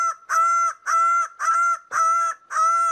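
Greater bird of paradise calling: a rapid series of loud, nasal, honking notes, each rich in harmonics and evenly spaced with brief gaps, delivered alone without voices.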